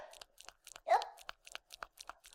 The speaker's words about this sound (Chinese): 我在吃辣条，老公，没事。哎呀，就是辣条太辣